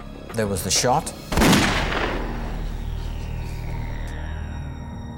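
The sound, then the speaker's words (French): A single revolver gunshot fired on a gangway: one sharp, loud blast that rings out with a long, gradually fading tail. “Et il y a eu un coup de feu.”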